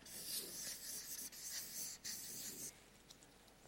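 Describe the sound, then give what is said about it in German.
Rapid scratching of a pen writing something down on paper: a dense, continuous rasp of quick strokes, broken by a few brief pauses, with no voices. “schreibe das schnell auf, dass wir nachher erinnert werden.”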